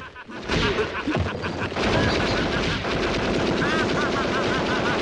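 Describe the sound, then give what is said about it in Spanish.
Firecrackers burst inside a metal cooking pot, a dense, loud, rapid crackle of overlapping bangs like machine-gun fire that begins abruptly and keeps rattling without pause to the end. “El niño enciende los petardos dentro de la cacerola.”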